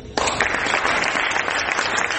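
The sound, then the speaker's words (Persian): Audience applause for filmmakers at the Venice Film Festival. It bursts in abruptly after a brief quiet moment and then holds as a loud, dense, steady wash of clapping. “و اینو جناب آقای پناهی و آقای رسولوف اینو اینجا ثابت کردن و ازتون میخوام تشویقشون کنم.”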